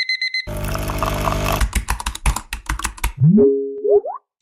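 Keyboard typing within a montage of weekday sounds. An electronic alarm beeps, a burst of rushing noise follows, then comes a run of quick clicking keystrokes. Springy rising boing tones and a final short beep close it out.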